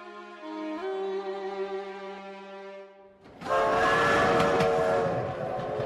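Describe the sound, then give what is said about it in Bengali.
A train whistle sounds as a steady, harmonic tone for about three seconds, then gives way to loud, broad rumbling and clattering train noise with whistle tones still running over it, on a morning train leaving Waterloo station. “পরদিন সকালে train ধরে Waterloo station থেকে অ্যালডার শটে পা রাখলাম দুপুর নাগাদ।”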